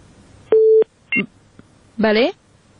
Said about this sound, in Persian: بله تماسشون قطع شد.